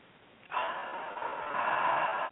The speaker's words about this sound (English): So in through the nose.